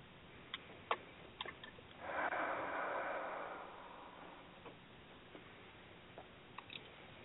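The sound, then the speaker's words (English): A person takes a slow deep breath, one long, soft, breathy rush in the middle, with faint scattered ticks and clicks before and after it. “Let me take a breath or two and get in a trance.”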